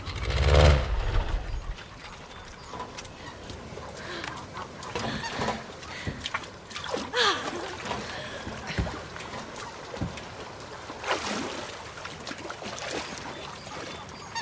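A goose landing on a small lake near a barn. It opens with a loud, heavy splash, followed by quieter sloshing of water and scattered clucking bird calls.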